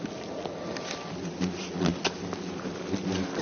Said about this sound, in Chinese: 现在虎头蜂撞击我的这个衣服的声音特别响